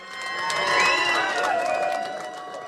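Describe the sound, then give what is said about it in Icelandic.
Crowd cheering and shouting at an election night party at Glerártorg, a dense, steady roar of many excited voices that swells slightly and then eases off. “Sjónvarpsupptökur frá kosningavöku ellistans á Glerartorgi þessa nótt sína fagnaðalætin.”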